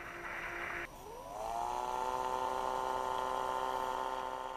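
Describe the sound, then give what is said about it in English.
Motor whine from Icefin, a torpedo-shaped robotic autonomous underwater vehicle, recorded under Antarctica's Ross Ice Shelf in 2015. A steady tone breaks off briefly, then a harmonic whine rises in pitch and settles into a sustained drone. “That is Icefin, a torpedo-shaped, robotic, autonomous underwater vehicle with plenty of instrumentation to analyze any life under the Ross Ice Shelf of Antarctica. This audio is from Icefin doing just that in 2015.”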